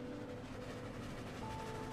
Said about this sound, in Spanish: está saliendo de la estación. Y el vagón comienza a rodar